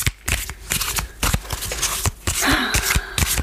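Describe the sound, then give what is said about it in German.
Tarot cards being shuffled by hand: irregular bursts of crisp papery riffling and soft slaps, some short and sharp, others longer and rustling, repeating unevenly throughout. “Wir mischen jetzt... Deine Zukunft. Deine Zukunft in einer Karte.”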